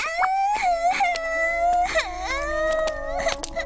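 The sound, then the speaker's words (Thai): A child crying: drawn-out, high wailing cries broken by several sobbing catches and whimpers, with no other sound. “ร้องไห้ทำไมล่ะลูก”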